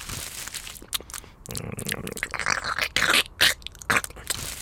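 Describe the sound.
Crunching and scraping from someone eating mixed metal screws, with irregular gritty bursts that grow louder and sharper in the second half, no voices.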